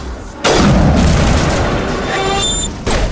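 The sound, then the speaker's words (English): Sniper rifle shots fired at creepers in a video game: a loud, heavy boom that rings on for a couple of seconds, then a second sharp blast near the end. “So these creepers can take four sniper shots to kill. That's how many. Compared to the Geth, which usually take like 3.”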